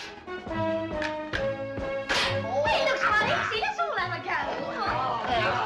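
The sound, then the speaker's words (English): Rifle shots crack at moving animal-shaped targets in a shooting range: several sharp snaps ring out over a sustained musical tone, then give way to busier clatter mixed with chattering voices. “The man tending the range hands a rifle to Sid, who starts expertly shooting down some moving targets in the shape of animals.”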